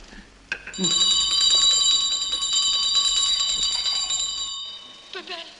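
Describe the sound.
A priest previewing films shakes a small hand bell, and its bright, high, continuous ringing lasts about four seconds before it stops abruptly.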